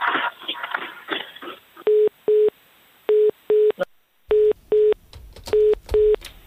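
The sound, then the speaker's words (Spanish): A telephone busy tone after a call is cut off: eight short, steady, same-pitch beeps in pairs, sounding alone after a brief stretch of muffled noise. “¿Nos ha cortado? No sé si nos ha colgado”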